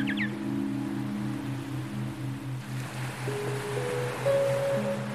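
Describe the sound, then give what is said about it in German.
Ocean waves make a steady, soft wash of surf that rises and falls gently throughout, joined by low sustained musical tones. “Gemeinsam lauscht ihr den Wellen des Meeres”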